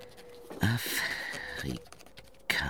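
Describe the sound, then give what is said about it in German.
A quill pen dipped in an inkwell scratches across unfolded writing paper in a small apartment, giving brisk, dry, scraping strokes in a few uneven bursts while a voice speaks alongside. “stellte er ein Licht auf den Tisch, faltete Briefpapier auseinander, tauchte seine Feder in das Tintenfass.”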